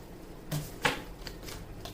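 Quick riffles as a deck of cards is shuffled for a card reading. A few brief, crisp bursts of flicking paper come in short separate ruffles, with quiet pauses between them.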